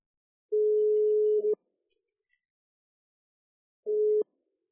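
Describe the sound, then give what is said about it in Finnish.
Telephone ringback tone heard while a call is being placed: a steady, single-pitched tone sounds for about a second, followed by a long silence, then a second burst that is cut short. “pitemmittä puheitta pistetään puhelu käyntiin”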